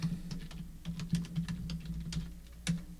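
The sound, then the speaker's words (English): Typing on a computer keyboard: many quiet key clicks in an uneven, continuous patter, with a few slightly louder taps along the way. “I'm going to type it in.”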